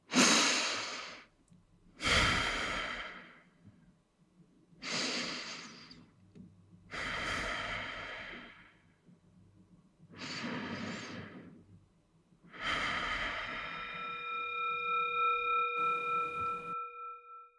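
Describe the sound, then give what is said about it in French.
Deep, slow breathing during a relaxation and reflexology warm-up, with long audible breaths in and out through the airways. The breaths come in a steady series of separate rushing swells, each fading before the next begins, with no talk. “Alors, après trois grandes et profondes respirations,”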